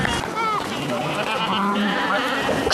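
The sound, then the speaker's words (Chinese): Sheep bleating while being herded, several wavering cries overlapping through a dense, busy background of other sounds. “赶羊也是我生活当中练力量的一种方式。”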